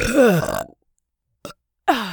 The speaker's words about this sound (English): Seems letting out that last fart must have been enough to shake the elevator out of whatever it was caught up on.